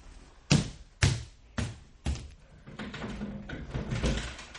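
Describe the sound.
A key being tried in a door lock it does not fit: four sharp knocking clacks in quick succession, then a longer stretch of jiggling metallic rattling.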